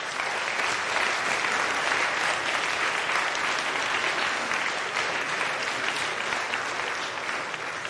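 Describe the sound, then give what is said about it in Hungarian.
Audience applause after a physics demonstration: a continuous, dense wash of many hands clapping that stays loud and even for about eight seconds, with no voices. “a tapsot szeretném a fizika nevében megköszönni, nem nekem szól, hanem a fizikának”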